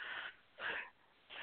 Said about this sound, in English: Are we starting out yawning already?